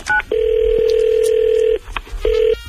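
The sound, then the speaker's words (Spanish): Telephone call being placed: a quick two-note beep, then a long, loud, steady ringing tone. After a brief gap with a click, a second shorter tone starts. “Espera, vamos a llamar a Stanos.”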